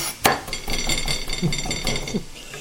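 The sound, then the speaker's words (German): A knife chops fresh rosemary on a board: one sharp knock opens, followed by several softer, uneven taps and clicks, with light clinks of metal between them. “In der Zeit hacke ich mir den Rosmarin schön frisch.”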